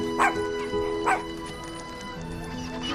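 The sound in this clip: Dogs give two short, sharp barks about a second apart, then fall quiet over a steady, soft tonal background hum.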